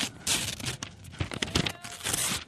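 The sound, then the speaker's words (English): Something being ripped off, with repeated rough tearing bursts mixed with crinkling, loud and uneven over a couple of seconds. “Now let me rip this off.”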